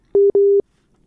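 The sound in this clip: A telephone busy tone sounds after a call disconnects: two loud, clean beeps at the same mid pitch, the first short and the second longer, separated by a brief gap, then silence.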